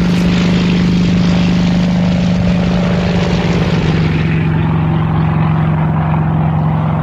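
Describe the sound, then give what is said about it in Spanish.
A propeller airplane in flight drones loudly and steadily with a constant low hum, and its brighter hiss fades partway through. “O sea que cogemos el avión que rápidamente nos va a llevar de un sitio a otro.”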